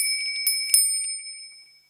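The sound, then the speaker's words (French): A doorbell rings at a front door in a children's story scene. Two bright strikes sound over a sustained ringing tone that slowly fades to silence. “Quelque temps après, vint sonner à la porte.”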